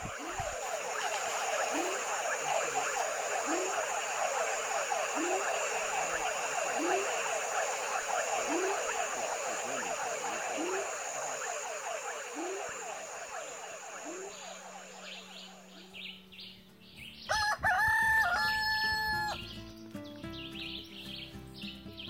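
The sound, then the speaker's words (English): Night ambience in the jungle at a campsite in Bajo Cobre: a dense, steady chorus of rapid chirping calls with repeated rhythmic pulses, shifting near the end to louder, more tonal sounds. “just wanted to give you guys a sample of what it sounds like out here in the jungle in Bajo Cobre.”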